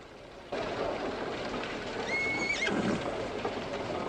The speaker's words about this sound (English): He ties the horses up outside, then heads in.